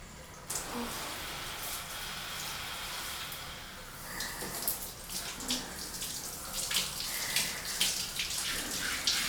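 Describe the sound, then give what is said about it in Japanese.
Warm water runs gently from a tap while someone's back is rinsed after a body scrub. It is a soft, steady, faint trickle with light splashes and drips that grow a little busier toward the end. “お湯柔らかに流してるから、こうして”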